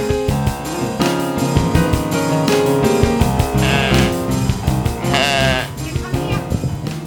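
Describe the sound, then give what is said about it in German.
A lamb bleats on a sunny farm outing, giving a couple of longer, quavering calls in the second half over a dense, continuous tonal background. “Da ist ein Lamm.”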